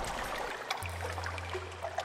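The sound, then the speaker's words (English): Bay water laps at the edges of an abandoned speedboat racing stadium on Biscayne Bay. It makes a soft, steady wash with small splashes, and a low, constant hum comes in partway through. “That's the sound of the water of Biscayne Bay, lapping up at the edges of the abandoned speedboat racing venue on Virginia Key, known as the Miami Marine Stadium.”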